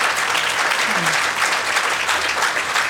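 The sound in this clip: Audience clapping at a community gathering: dense, loud applause that holds steady for the whole stretch without pause.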